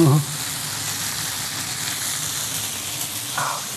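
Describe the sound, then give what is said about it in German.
Onions frying in a pan with sausage, a steady, even sizzling hiss that runs unbroken from start to finish. “Und jetzt schmeiße ich einfach hier Zwiebeln dazu.”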